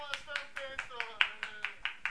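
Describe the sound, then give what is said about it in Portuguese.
Rhythmic clapping sounds out in about ten sharp, evenly spaced claps, fairly faint, while a voice talks underneath. “Palmas”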